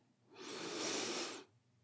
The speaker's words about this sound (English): we are going to take a few deep, relaxing breaths together. Inhale through your nose.